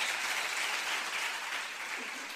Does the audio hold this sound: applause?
yes